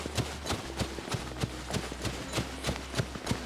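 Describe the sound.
A horse gallops past the judges' marker on a course set among hay bales, with many rapid, steady hoofbeats over a low, constant hum.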